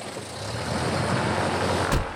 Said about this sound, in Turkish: Emniyet kemeri takılı, devre kesici takılı, frenler tamam, motor çalıştırılıyor. Gaz açık. Pervane dönüyor.